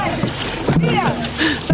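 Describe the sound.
Water splashing and paddle strokes from a crewed dragon boat with a drummer at a race in Simmerath, heard briefly under loud voices.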